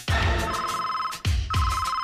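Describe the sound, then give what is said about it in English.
A secret gadget phone rings loudly with a bright electronic ringtone. Its repeating tonal bursts restart sharply a few times, with no voices. “Secret gadget phone.”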